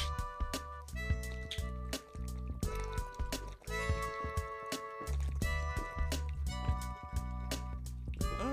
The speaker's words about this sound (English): Should we get hydrated right now? I got one. Let's do this. You want to chug one? Are we chugging?